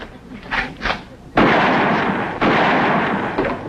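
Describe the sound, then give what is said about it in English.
Two gunshots fired at a telephone wire ring out after a brief voice, each a sudden loud blast followed by a long, rumbling decay, the second coming about a second after the first. “It took you two shots to get that wire.”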